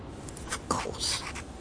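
Pen scratching across paper as a letter is written in the desert, a few short scribbling strokes, quiet and alone.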